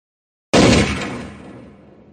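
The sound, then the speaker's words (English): A single handgun shot rings out in the mountains, a sudden loud crack after a moment of silence, followed by a long reverberant echo that fades gradually over more than a second. “The shot was louder than I expected, and echoed through the mountains for almost 3 seconds.”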